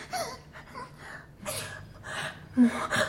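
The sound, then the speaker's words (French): Gasping breaths from a person having an asthma attack: a few strained, ragged breaths come in short bursts separated by brief pauses, the last sharper and louder. “Je suis asthmatique. Je fais une crise.”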